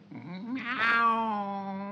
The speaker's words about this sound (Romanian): Da, nu mi-închipuiam că puteți lua chiar și chipul unei pisici.